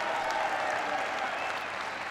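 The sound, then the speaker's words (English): A crowd applauds during a speech, a sustained, even roar of clapping at steady moderate loudness that stays level for the whole stretch. “Give him a big round of applause.”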